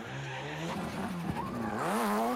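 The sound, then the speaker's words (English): A car drifts with its tires squealing, a wavering screech over a droning engine tone that climbs in pitch near the end. “That's probably one of his hardest drifts.”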